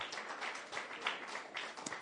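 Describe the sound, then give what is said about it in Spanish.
An audience applauds during a church service, a faint, dense and steady patter of many hands clapping that carries on evenly for the whole clip. “Denle un aplauso a Jesús por eso.”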